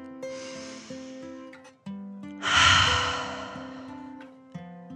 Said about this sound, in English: The dragon took another deep dragon breath in and out.